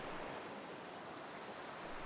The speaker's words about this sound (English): Ooh, the waves are getting big. Steady on there, mateys.